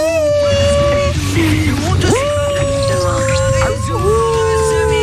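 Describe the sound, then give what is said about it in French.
A human voice imitates a miniature pinscher dog howling: long, wavering, tonal wails that slide up and down in pitch, loud and sustained over a busy background. “C'est un chien, c'est pas un loup, Scooby-Doo. Scooby-Doo, il fait des bruits comme ça. C'est quoi comme modèle de chien ? C'est un pincher nain.”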